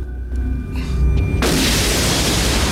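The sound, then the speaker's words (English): A gunshot shatters the glass of a large water tank: one sudden loud burst, then a dense, continuous roar that stays loud to the end. “fires one shot, shattering the glass of a large water tank”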